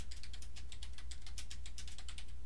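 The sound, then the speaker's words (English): Keystrokes on a computer keyboard as a title is typed into an edit box: a steady, rapid stream of faint, light clicks over a low hum. “I'm going to type the title”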